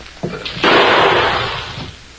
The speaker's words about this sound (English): Only this time, I'll shoot at it. Here goes.